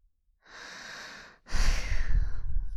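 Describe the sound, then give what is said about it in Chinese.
A person breathes close by: a soft, drawn-out inhale, a brief pause, then a louder, rushing exhale with a breathy, snorting edge. “别翻身对着这边啊，你这样呼吸弄得我好难受啊。”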